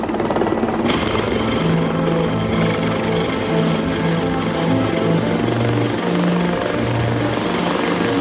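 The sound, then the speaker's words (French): Rotors of two helicopters landing at Sarajevo airport make a loud, continuous thumping roar over a steady low engine drone that holds throughout. “Puis, on entend les premiers ronflements des rotors des deux hélicoptères. Ils atterrissent, on éteint les moteurs, il est 10h30, François Mitterrand pose le pied à Sarajevo.”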